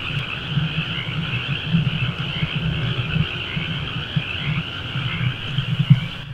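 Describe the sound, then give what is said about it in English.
Chorus of frogs croaking outside an open window, a dense continuous throb of low pulsing calls layered under a steady higher trilling drone, with no voices. “So I am going to stop for a minute and open the window of the room I'm in and put the microphone up to the window so you can really hear the frogs.”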